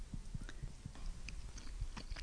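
Faint, close biting and chewing of a creamy dish made with butter, tuna, milk and mushrooms: many small, soft, moist clicks and squelches in a steady, irregular rhythm.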